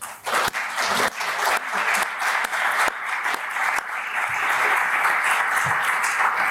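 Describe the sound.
Audience applause welcoming panelists at an LSE event: dense, sustained clapping that keeps a fairly even loudness for about six seconds.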